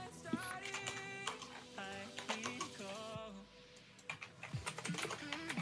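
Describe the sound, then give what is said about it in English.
Typing on a computer keyboard: many rapid, uneven key clicks run throughout, mixed with people talking over them. “What are you typing about? You better not be typing shit about me.”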